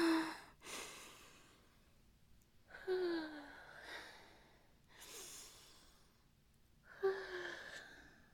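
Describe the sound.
Deep breaths taken to calm down after a moment of panic: several long, airy inhales and exhales spaced a few seconds apart, some sighed out with a faint, falling voiced tone. There is no talk.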